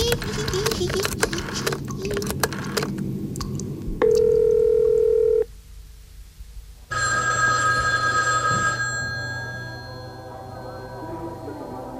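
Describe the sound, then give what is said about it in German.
A telephone call comes through during a training session, with clatter and clicks first, then a steady electronic tone, a short lull, and a bright trilling ring that holds for a couple of seconds before fading. “Welches blöde Warzenschwein ruft hier mitten beim Training an?”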